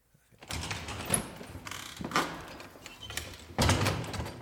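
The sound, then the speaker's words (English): Faint door sounds as someone arrives: scraping, latch-like mechanical rattles and a few dull clunks, with a heavier thump near the end and no talking. “Oh, there's somebody at the door. Let me see who it is.”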